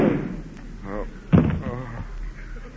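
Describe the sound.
Gunshot in a radio drama: one short, sharp bang in the middle of frantic, shouting voices.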